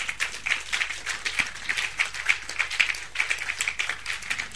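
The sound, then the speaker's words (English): A church audience clapping their hands during a service, many quick claps in a steady, rhythmic pulse, moderately loud. “Clap your hands unto Jesus. Please clap your hands.”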